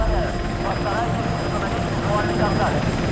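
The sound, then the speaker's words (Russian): Helicopter flying over the taiga in darkness: a loud, steady rotor and engine drone fills the whole stretch, with a voice talking over it. “В темноте над тайгой летит вертолет.”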